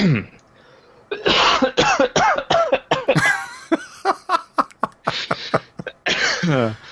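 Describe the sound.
Repeated coughing and throat clearing from someone with something caught in the throat: many harsh, loud bursts in an uneven run, with strained voiced gasps between them.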